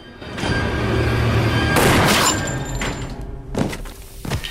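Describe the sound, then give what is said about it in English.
Gunfire as a zombified soldier in army fatigues is shot in the head: a heavy booming blast with a long, noisy rumbling tail, followed by two shorter, sharper thumps. “Riley shoots him in the head.”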